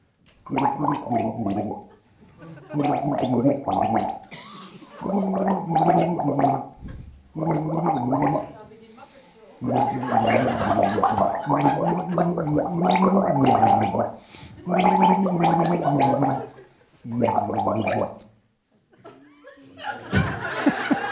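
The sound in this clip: A person gargles water in many voiced, throaty bursts, some deep and tenor-like, with laughter mixed in between the gargles.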